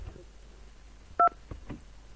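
A single short two-tone telephone beep sounds as an incoming call arrives, loud and brief against a faint steady hum, with no talk.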